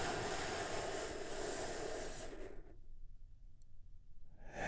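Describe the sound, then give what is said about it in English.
A big, deep breath drawn in during guided relaxation, a steady airy rush lasting a few seconds that stops abruptly. A short quiet gap follows before air stirs again faintly. “And we do that by taking a big, deep, healing breath all together.”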